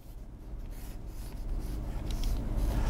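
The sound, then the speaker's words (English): A cube is drawn by hand, heard as steady scratching and rubbing strokes of a drawing tool on a surface, continuous and fairly soft, growing slightly louder toward the end. “I'll draw a cube.”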